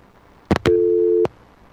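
Telephone busy signal on a radio call-in line after a caller dropped off: two quick clicks, then a single steady, clear tone held for about half a second before it cuts off.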